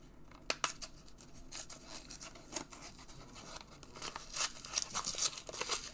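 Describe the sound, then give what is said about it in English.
Faint crinkling, tearing and light clicking as a Match Attax 23/24 football trading card booster tin holding 42 cards is opened. Many small irregular rustles and snaps run throughout, with no talking. “So we're going to open this booster tin and show you what you can get inside.”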